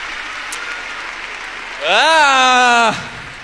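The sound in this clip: Applause rewards a performer on stage. Steady clapping runs throughout, and a loud whooping voice rises and then falls over it midway.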